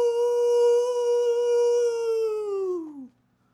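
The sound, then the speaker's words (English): A man imitates a coyote howl with a single long, sustained tonal wail rich in overtones. It holds steady, then bends downward in pitch and cuts off near the end. “This is the Sound of the Week, brought to you by a man pretending to be a coyote.”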